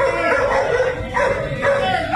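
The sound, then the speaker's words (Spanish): A dangerous dog that had already attacked barks in video footage of a police incident, loud and dense against a noisy, crowded background. “Ahí aparece el perro. El perrito, ¡ay, Dios mío!”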